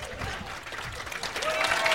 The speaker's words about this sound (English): I think some people are just clapping because they didn't want to be left out.